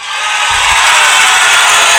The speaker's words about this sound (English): We are doing a mobile portable podcast. And so here we go. Let's give a round of applause.